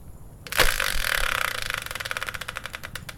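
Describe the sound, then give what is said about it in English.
A spinning prize wheel sound effect: a sharp burst sets it going, then a rapid run of ratcheting clicks gradually spreads out and slows toward the end, with no voices. “let's bring in the Wheel of Fortune style spinner and find out what today's subject will be”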